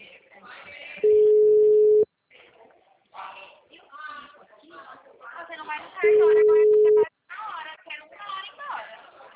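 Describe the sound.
Ringback tone of an outgoing phone call: two steady, mid-pitched electronic tones, each about a second long and loud, separated by a long gap in which people talk.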